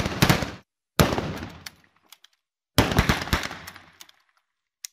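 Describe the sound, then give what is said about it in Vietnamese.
Pistol shots fired in anger at a man, three sharp loud reports, each trailing off in a long ringing decay, with a few faint clicks between them. “Hắn điên tiết rút súng ra nã mấy viên vào thẳng người của Nam.”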